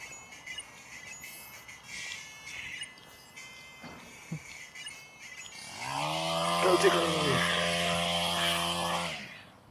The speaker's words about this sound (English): a man trimming his hedge